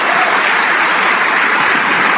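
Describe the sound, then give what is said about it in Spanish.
Applause from an audience during a church service, offered to the King of Kings: dense, steady clapping that holds an even loudness throughout, with no voices above it. “Vamos a darle un aplauso al Rey de Reyes.”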